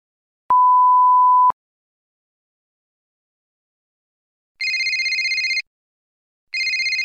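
A steady one-second beep, then a telephone ringing for an incoming call in two trilling bursts, the second cut off.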